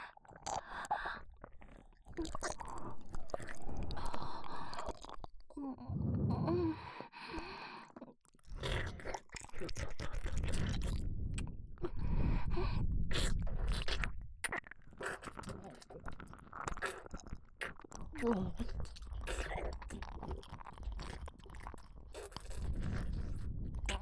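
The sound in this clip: Food is chewed and bitten in close, moist bursts of crunching and smacking. The sound is loud and continuous for the whole stretch, with only brief pauses between bites.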